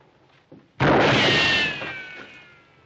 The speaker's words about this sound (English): Hey. Somebody shooting at somebody. I think it's us.